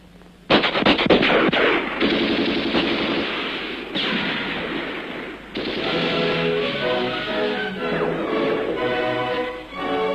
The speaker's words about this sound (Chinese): 敌人的枪声现在却成了祝贺起义成功的鞭炮。